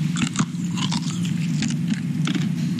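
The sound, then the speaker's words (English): Crunchy biting and chewing as someone tastes trehalose sugar: a few sharp crunches over a steady low hum. “And he even gave me a taste of the trehalose.”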